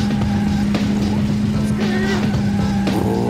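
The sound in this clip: Racing car engine from an N64 racing video game published by Electronic Arts, a steady, loud droning hum that holds through the whole stretch.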